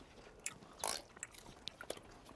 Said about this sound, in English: I want to try these hash browns with some egg on them. Mmm. Take a look at this bite, you ready?